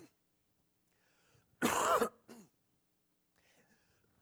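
A person clears their throat once, loudly and harshly, then gives a brief softer rasp, with near silence before and after.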